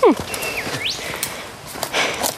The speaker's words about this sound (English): A golden whistler is calling in the background